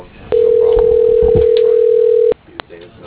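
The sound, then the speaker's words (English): A telephone ringback tone sounds while calling a cell phone: one loud, steady, even-pitched tone lasting about two seconds, then a brief click and a voice beginning to speak. “calling a cell phone”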